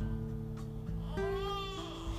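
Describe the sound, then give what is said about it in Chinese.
A baby boy cries in a short, wavering wail that rises and then trails off over a steady background. “啊，弟弟哭了啊！”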